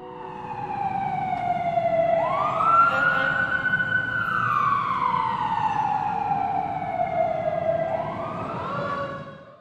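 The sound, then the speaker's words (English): An emergency vehicle siren wails loudly over a low engine rumble, its pitch sweeping up, holding high, sliding slowly down, then climbing again near the end. “as soon as that siren went off, it set an alarm off in me.”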